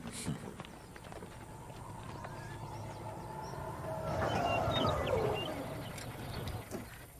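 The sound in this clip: Hooves of a strong horse clip-clopping in an irregular rhythm, faint over a steady low hum, with a brief swell in loudness midway.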